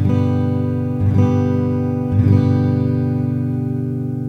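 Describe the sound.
Open G chord strummed on guitar, fretted at the third fret on the fifth, sixth and first strings, ringing steadily with a few fresh strums renewing the bright, sustained chord.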